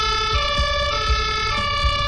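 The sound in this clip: A German fire brigade siren sounds its two-tone call during a drill with the technical relief service at a church. Steady high and low tones alternate in a regular pattern, with soft low thumps underneath and no voices.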